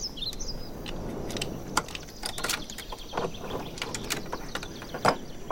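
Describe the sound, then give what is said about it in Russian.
Metallic clicks and faint rattling as a key works a rusty padlock on a shabby door, a few sharp ticks scattered over quiet background noise. “Она снимает с шеи ключ, вставляет его в ржавый навесной замок на обшарпанной двери.”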